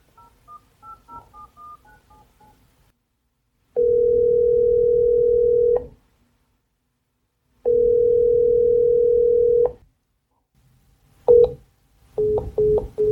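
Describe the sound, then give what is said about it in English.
Telephone line tones: faint keypad dialing beeps, then two long steady tones separated by a pause, then a sharp click followed by several short repeated beeps as the call drops. “We got cut off again. It's like it answers, but then clicks off.”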